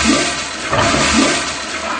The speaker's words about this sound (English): a regular guy with a low-flush toilet of his own. I flushed one Saturday morning. I had to do it twice.